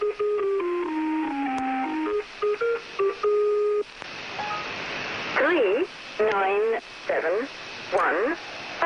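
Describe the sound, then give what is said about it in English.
A mysterious shortwave radio station broadcast: a run of stepped electronic tones that gives way to hissing static laced with warbling, chirping tones and choppy bursts. “So while the city slept, night after night, he searched the dial of his shortwave radio for more of these mysterious sounds.”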